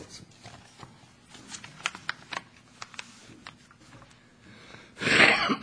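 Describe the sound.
Throat clearing comes as one loud, harsh burst right at the end, after a few faint scattered clicks and soft rustles.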